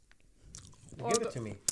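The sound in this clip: Biting into and chewing a nut-topped treat: a crisp crunch, then a voice talking, and another crunchy bite at the end, all fairly quiet.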